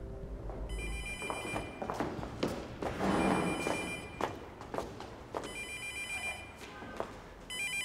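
A telephone rings in repeated high, bright bursts, each ring a tight cluster of tones, with soft thumps and movement underneath and no talking.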